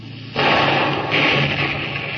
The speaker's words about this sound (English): Put another shot across the bow, Lieutenant. Aye, aye, sir. Board gun, fire!